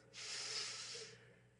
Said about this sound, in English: Deep breath.